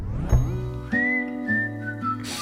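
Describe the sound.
Whistling carries a melody inside a song, with a few sustained, clear high notes held over steady instrumental backing.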